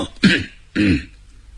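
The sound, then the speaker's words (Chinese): Two dry coughs or throat clearings made by a voice acting out an official holding a document, each a short rough burst with a strained, voiced rasp, separated by a brief pause. “这文官捧着这表彰啊，站在这会儿干咳嗽两声，”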